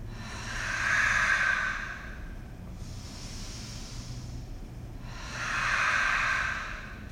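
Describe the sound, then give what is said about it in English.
Slow, deliberate breathing during a guided breathing exercise: two long, airy breaths swell and fade, with a softer, quieter breath between them, all without speech. “Listen for the breath, guys.”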